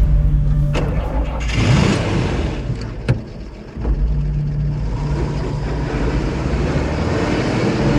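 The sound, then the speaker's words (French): An armored security truck's engine starts and rumbles as the heavy vehicle pulls slowly out of a garage. A steady low drone briefly dips, then swells back up. “Il est un peu plus de 8h20 ce jeudi 5 novembre lorsque le camion blindé de la Lomis démarre.”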